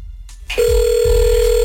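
A telephone line after a number is dialed: brief clicks and a soft thump, then a loud, steady single-pitched ring tone starts and holds without a break to the end.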